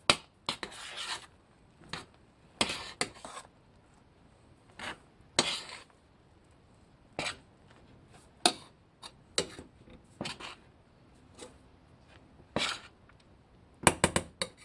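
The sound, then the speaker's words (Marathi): A spoon scrapes and knocks as flour is mixed into a cooked dough in a pan. Many short, irregular dry scrapes and taps sound fairly faint, separated by quiet gaps. “आणि त्यात पीठ टाकायची आहेत। व्यवस्थित mix करून घेऊया।”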